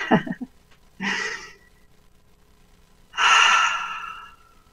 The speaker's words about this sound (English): So nice deep breath.